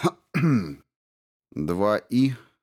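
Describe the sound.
A man clears his throat, voiced by a reader: a few short, gruff vocal bursts split by a pause, clear and alone.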